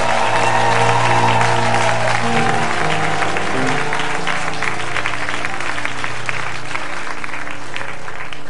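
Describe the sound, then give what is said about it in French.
A worship audience claps loudly and steadily, a thick continuous wash of many hands, over sustained held tonal notes that run throughout. “On peut lui acclamer notre Dieu.”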